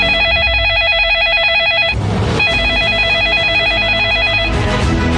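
Telephone ringing: a loud warbling electronic ring repeats in two long bursts, each cut off by a short noisy break, with no voices.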